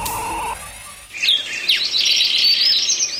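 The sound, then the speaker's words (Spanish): Swallows chirping in a rapid series of high, sharp twitters that overlap into a continuous, bright chatter, preceded by a brief steady tone. “Golondrina.”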